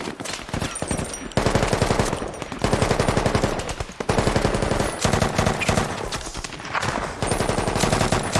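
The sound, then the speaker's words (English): Rapid automatic machine-gun fire during a firefight with enemies on rooftops, loud and dense, coming in long sustained bursts separated by several brief pauses, with no voices. “Taking effective enemy fire! Multiple bad guys on the rooftops!”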